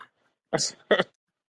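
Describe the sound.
A person clears their throat in two short, rasping bursts, the second slightly shorter than the first, after a brief silence.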